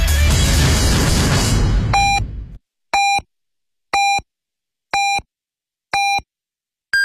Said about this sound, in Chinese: 北京时间12点整。